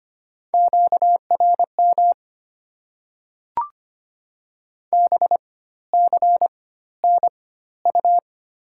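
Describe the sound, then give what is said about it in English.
A radio interference tone: steady mid-pitched electronic beeps in clusters of rapid pulses separated by gaps, with a single short click in the silence near the middle. “Beam. Interference.”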